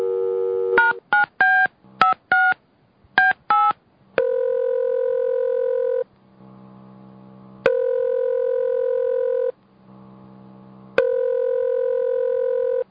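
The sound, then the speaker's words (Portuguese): A telephone number is dialed on a keypad: a quick run of many short beeping tones, then long steady tones that repeat three times with a low hum between them. “Vamos ligar para os estagiários.”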